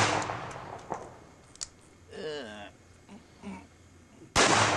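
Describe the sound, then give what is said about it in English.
Gunshots fired at a painted portrait: a few sharp cracks early on, then a much louder blast at the end, with brief talk between the shots. “That's Burroughs on YouTube, blasting Ralph Steadman's portrait of William Shakespeare.”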